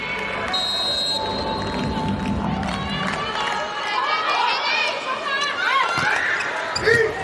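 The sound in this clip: A volleyball serve by a middle blocker during a match: sharp ball strikes cut through crowd noise while a commentator talks over the action.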